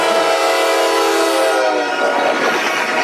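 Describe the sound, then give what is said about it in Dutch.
A train rushes loudly toward listeners in a tunnel on the way to a roller coaster, a replayed effect. A dense, sustained roar carries horn-like tones that fade midway into broad rumbling. “een dikke trein op ons af. En even om te zorgen dat je het effect begrijpt, dacht ik, doen we het ook even hier.”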